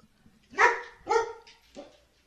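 A female dog barks three times in quick succession, sharp mid-pitched barks with short gaps between them, the last one softer and shorter, heard on its own without talk.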